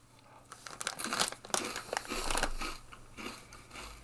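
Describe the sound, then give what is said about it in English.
Crinkling plastic wrapper of a package of cookies-and-cream Muddy Buddy cookies, handled in a fairly quiet stretch of irregular crackling bursts and rustles, with no talk. “And we got some Muddy Buddy cookies. Cookies and cream.”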